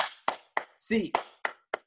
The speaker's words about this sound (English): So it's just a clap? 8 claps.